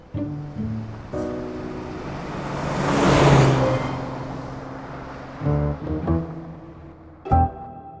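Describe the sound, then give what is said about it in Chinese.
A car drives by, its broad whooshing road and engine noise swelling to a peak mid-clip and then fading, with a few short, lower knocks and rumbles near the end. “去开车。”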